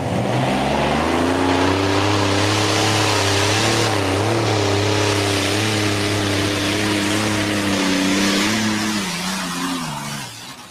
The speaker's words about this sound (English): That's the heavy class one with the top motor removed.